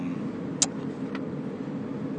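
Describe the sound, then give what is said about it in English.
Interior noise of a car being driven: a steady low rumble of engine and road holds throughout, with a brief sharp click partway through and no talk. “We are gonna try a little something called recording while driving.”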